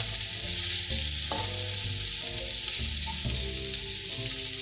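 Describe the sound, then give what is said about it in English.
Onions fry in olive oil over medium heat, giving a steady, soft crackling sizzle that carries on at an even level throughout. Nobody talks. “I don't want my onions to brown, so I am using olive oil instead.”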